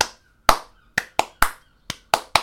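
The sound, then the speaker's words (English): Single hand claps, a golf-clap style of clapping: a series of sharp, separate claps spaced irregularly with quiet gaps between them, each snapping on and decaying quickly. “Or maybe yours would just be, like, Clap of the Week. Or... Oh, or, no. Golf clap.”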